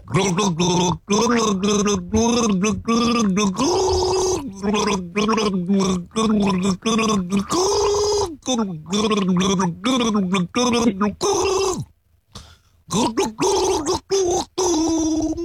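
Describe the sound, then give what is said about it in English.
A person gargling the tune of a pop song. The bubbling water carries a rising and falling sung melody in steady phrases with short gaps, loud and alone, with one longer pause near the end. “I'm gargling a song from an artist who is a daddy.”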